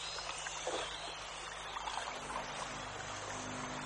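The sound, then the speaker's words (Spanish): Water sloshing and splashing as a boy paddles a canoe away from a mission in colonial South America: a steady, even wash of water with a low hum beneath and no voices. “El niño que acompañaba a Mendoza sube a la canoa y rema.”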